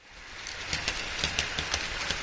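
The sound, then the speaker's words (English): A model train runs around its track at a house in Portage, a steady rolling rumble marked by evenly spaced wheel clicks that repeat at a brisk, regular rhythm. “A model train makes its way around the track at Greg Pete's house in Portage.”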